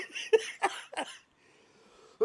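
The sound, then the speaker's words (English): Coughing from someone who has just eaten sour Warheads candy: several short, harsh bursts close together, a quiet pause, then one more cough, all fairly faint. “Oh, my goodness. Making me cough, yo.”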